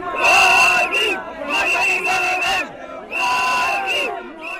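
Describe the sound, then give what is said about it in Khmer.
A large crowd of thousands shouts at an airport in Dhaka, welcoming a returning former leader. The chanting is loud and comes in repeated rhythmic bursts of many voices. “ខណៈដែលលោក Wade កំពុងធ្វើដំណើរតាមបណ្ដោយផ្លូវនៅក្នុងប្រទេសវងមនុស្សបានស្រែកហូថា”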